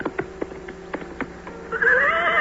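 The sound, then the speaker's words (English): A horse gallops in a quick run of hoofbeats as it carries a rider back to a medieval tournament, then breaks into a loud, high, wavering whinny that carries to the end. “reached out and grasped it by its hilt and pulled it out, then galloped back to the tournament and his brother, Sir Kay.”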